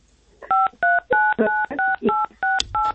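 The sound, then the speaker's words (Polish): Telephone keypad tones from a caller phoning in and pressing too many keys on a poor connection. Eight evenly spaced, steady two-note beeps sound in quick succession, with a faint voice murmuring underneath some of them. “Oj, coś kiepskie połączenie. Naciska pani za dużo klawiszy.”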